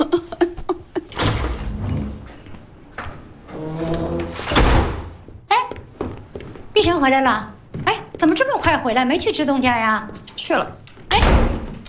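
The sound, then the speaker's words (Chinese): A door is shut and locked with a solid, heavy thunk, with further knocks and bumps among animated voices talking back and forth. “你锁门干啥呀”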